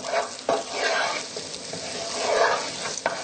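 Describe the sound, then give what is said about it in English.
Onions sizzle steadily in a hot pan while being stirred, with scraping and a couple of sharp clicks from the stirring utensil over a continuous crackling fry. “The longer that onion cooks, really the sweeter it gets, so we can keep it going for quite a while. Give it a good stir.”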